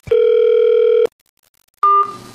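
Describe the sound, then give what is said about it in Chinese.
Telephone line tone as a call is put through: a steady, loud tone holds for about a second and then cuts to silence. A second, shorter tone follows and breaks into rough line noise, with no voices. “好，把电话接到我们的演播室。”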